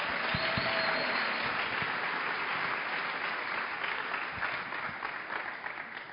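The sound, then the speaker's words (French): Dense audience applause during a French-language church service acclaiming the Lord. Many hands clap in a steady, continuous wash that tapers slightly toward the end. “On acclame le Seigneur.”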